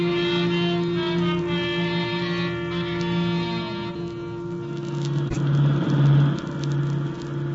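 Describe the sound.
A car driving and pulling up to the curb, its engine a steady, loud droning hum with a shift in tone about halfway through.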